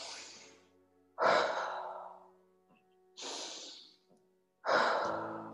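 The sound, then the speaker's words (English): Slow, deep breaths in and out during a guided breathing exercise: a few long, airy breaths that swell and fade, separated by short quiet pauses. “Let's take two more breaths in that halo octave pattern.”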